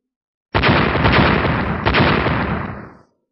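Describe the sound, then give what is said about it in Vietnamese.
A loud explosion sound effect for a blast on a high-rise skyscraper, with a dense, roaring burst that starts abruptly, surges again midway and rumbles on for about two and a half seconds before cutting away. “Xa xa đột nhiên truyền đến một tiếng nổ lớn”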